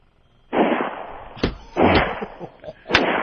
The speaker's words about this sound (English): Now, I'm going to shoot this one round at a time, even though I can shoot a double action, because it's a bit of a bear to shoot repeatedly.